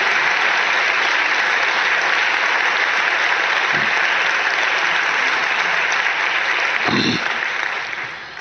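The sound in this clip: Audience applause welcoming a speaker in Houston, Texas: dense, steady clapping that holds loud throughout and eases slightly at the very end.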